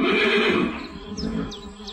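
A bridled horse neighs loudly in a long, broad whinny that starts strong and gradually trails off.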